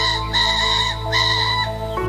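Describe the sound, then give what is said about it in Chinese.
Wild ring-necked pheasant cock calling in breeding season to claim territory: a loud, drawn-out harmonic crow lasting about two seconds, with a few shifts in pitch along the call, alone with no voices. “野生七彩山鸡，天生的地盘守护者，繁殖期公鸡会画一块地，站在高处鸣叫加展翅宣示主权。”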